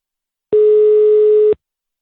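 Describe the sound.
A phone ringback tone plays while a call is being placed: one steady, mid-pitched tone lasting about a second, starting and stopping cleanly against silence.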